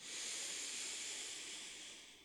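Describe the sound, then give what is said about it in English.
A slow inhale through the nose during a guided breathing exercise: a soft, airy hiss that swells quickly, holds steady, then gradually tapers off, faint and alone. “Inhale in through the nose.”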